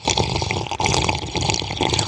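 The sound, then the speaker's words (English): Someone blows bubbles into a cup of coffee, making a loud, continuous bubbling burble with rapid uneven pops and a brief dip midway. “Just blowing bubbles again. Good old coffee.”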